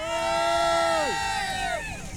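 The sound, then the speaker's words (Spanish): A crowd of people waiting in a ticket queue cheers and shouts, sustained loud whoops sliding down in pitch and overlapping, with more voices joining in toward the end. “¡Digan hola! ¡Griten, griten!”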